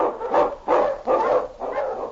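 Husky sled dogs barking: four rough, full-bodied barks in a steady, evenly spaced rhythm, fairly loud and with no talk.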